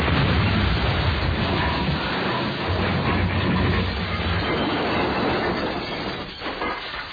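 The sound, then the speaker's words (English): A fire rock thrown from the other side of the mountain strikes with a heavy, crackling roar. The dense rumble holds loud for several seconds, then thins out and fades near the end. “What was that? A fire rock. I hate those. But Orthus ran out of them. It came from the other side of the mountain.”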